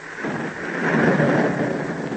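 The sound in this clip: Very heavy rain pours down in a dense, continuous roar with a low rumble beneath, loud and steady throughout with no voices.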